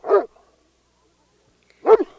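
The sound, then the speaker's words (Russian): A dog on a leash barks loudly while straining against it, giving two sharp, full barks separated by a long stretch of silence. “Что такое? Почему Мишка лает так сильно? С чего это он? Посмотрите на него, он просто рвется с поводка.”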